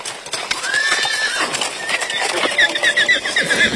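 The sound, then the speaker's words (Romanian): Horses clip-clopping and whinnying as hundreds of mounted pilgrims in traditional costume arrive at Șumuleu Ciuc in Harghita, Romania: many steady hoof clops with loud, wavering neighs rising above them. “Printre pelerinii ajunși la Șumuleuciuc s-au numărat și sute de oameni veniți călare, din Harghita și din județele învecinate, îmbrăcați în costume tradiționale.”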